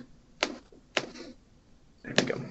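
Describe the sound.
Three separate keystrokes on a computer keyboard while a colon is typed into code, each a short, sharp tap with irregular gaps between them, fairly faint, with no voices.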